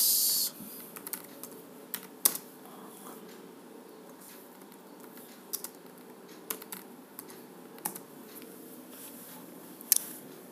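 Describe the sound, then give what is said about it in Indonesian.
Typing on a computer keyboard: many faint, irregular keystroke clicks, a few sharper taps standing out over a quiet, steady background. “coba gue coba tulis dulu ya penerangan gue ketik dulu ya guys”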